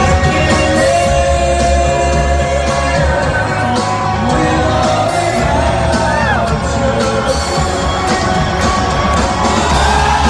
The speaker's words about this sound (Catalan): I aquesta era la reacció del públic, quedant engolit completament.